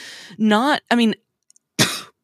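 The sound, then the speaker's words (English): Coughing and spluttering from a person choking on saliva inhaled in excitement: a breathy rasp, two strained voiced gasps, a short pause, then one sharp cough burst. “I did one of those things where I got excited and I breathed in. And then my spit was like, came with the breath.”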